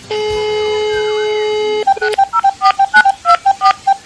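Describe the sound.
A telephone number to Bolivia is dialed: a steady electronic dial tone holds for under two seconds, then gives way to a rapid series of short, loud touch-tone beeps at varying pitches, with no voices.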